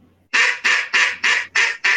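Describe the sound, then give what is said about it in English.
Basic duck quacks: six short, loud, nasal quacks in a quick, steady, even rhythm, with the last one cut off at the end. “if you have just a basic little quack, if you do those five times,”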